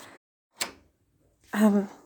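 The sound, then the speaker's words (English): A single sharp click-thunk of a door locking, standing alone in a brief silence between short bits of a voice speaking before and after. “Wait, what was that? Did your door just lock?”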